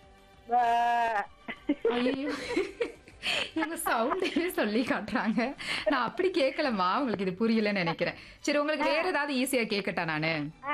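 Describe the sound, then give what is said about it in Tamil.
A voice imitating a goat's bleat with one short, quavering, nasal call near the start, followed by continuous lively talk. “நான் கூட விலங்குகளை சொல்றேன், நீங்க அந்த சவுண்ட மட்டும் சொல்லுங்க. கரெக்டான தமிழ் அர்த்தத்தோட சொல்லணும், சரிங்களா? முயற்சி பண்றேன். முயற்சி பண்ணுங்க, அழகா முயற்சி பண்ணுங்க, சரிங்களா? ஆடு.”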